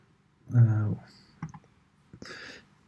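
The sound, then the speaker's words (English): Mouse clicks as an OK button is clicked on a computer: a few short, sharp clicks following a brief spoken voice, faint and isolated against a quiet background. “We copy this and click on OK.”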